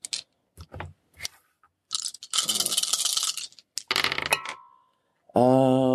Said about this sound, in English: Roll 5 dice.